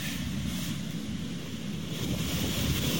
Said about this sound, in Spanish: Ustedes escuchan el sonido ambiente de el oleaje.